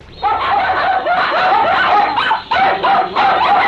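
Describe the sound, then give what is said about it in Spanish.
Dogs barking among a group of animals: many loud, sharp, yipping barks in a rapid, nearly continuous run, broken by only a couple of brief pauses. “Y ese perro que parece todo Brahman, hombre. Ese es el perro del coronel.”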